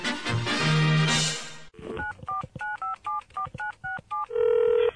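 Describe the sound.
A telephone is dialed with a quick run of clipped touch-tone beeps, each a short, even tone. A longer steady tone follows the run.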